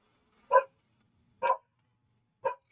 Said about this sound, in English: I'm so sorry about the barking dog.